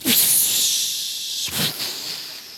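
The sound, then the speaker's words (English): A voice imitates the sizzle of a drink offering poured onto a burning-hot altar, with two long, breathy hisses, the second starting abruptly midway and trailing off. “on the altar that has been a burnt altar and is burning hot, and there's some other things there that are burning, part of the offering is to pour out the drink offering on the sacrifice. And when that happens, it goes,”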